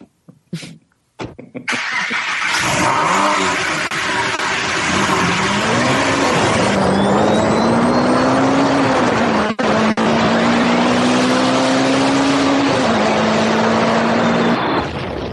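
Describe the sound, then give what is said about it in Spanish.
A car starting up and driving off: a few short clicks, then the engine fires and runs loud and steady, its note rising and dipping with the revs as it pulls away. “Pues venga, voy a subirme al coche”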